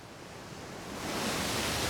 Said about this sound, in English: Waves crash against the rocks behind Shellback as he fishes in the cove.